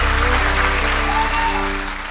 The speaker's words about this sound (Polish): Pietrucha Zalewska, wielkie brawa.